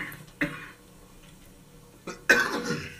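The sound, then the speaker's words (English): Coughing from a person on strong medication: one cough, then a quick pair of harsher coughs later, fairly faint and with no talk. “Y'all forgive me for this coughing. But this medicine is strong.”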